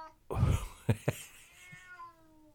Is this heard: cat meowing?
yes

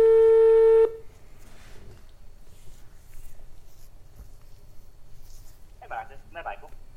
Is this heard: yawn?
no

